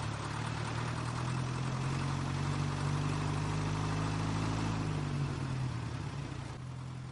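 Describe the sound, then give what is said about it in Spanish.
A truck engine running in a World War II setting: a continuous, steady low rumble with a droning hum that dips slightly near the end. No voices are heard. “Su camión se pone en marcha y Saúl”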